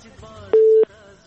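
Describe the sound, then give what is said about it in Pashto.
A single short, steady telephone busy-tone beep, about a third of a second long, sounds after a call-in line is cut off, with faint voices underneath. “له بده مرغه چې د همدرد صاحب اړیکه پرې شوله”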